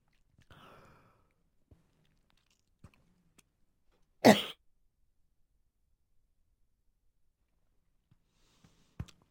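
A single sharp cough or throat clearing from someone with something caught in the throat, standing out in near silence with a few faint clicks around it.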